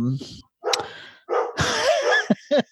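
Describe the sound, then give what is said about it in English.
A dog barks while chasing a Roomba robot vacuum, giving a few sharp, high barks and yips in short bursts separated by brief pauses. “That's one of my dogs that likes chasing my Roomba”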